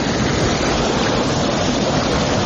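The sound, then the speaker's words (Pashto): Steady rushing of flowing water at a riverbank, a loud, unbroken wash of noise with no pauses or distinct events. “د دې اوبو په غاړه، د اوبو په شړار کې، او په یخو هواګانو کې.”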